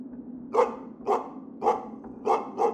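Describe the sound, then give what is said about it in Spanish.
Five sharp barks from a dog in the distance, evenly spaced over a faint, steady low hum, with no voices. “Un ladrido en la distancia me sacó del trance, y lo que sea que estaba detrás salió corriendo en dirección contraria.”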